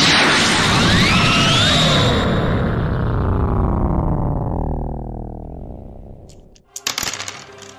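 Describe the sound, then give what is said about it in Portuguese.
A Galick Gun energy blast from a Dragon Ball video game: a loud, dense whooshing roar that slowly sinks in pitch and fades, then a short cluster of sharp cracking impacts. “Cara, você solta uma bolinha de energia que encontra o Galic Gun e ele voa pra cima.”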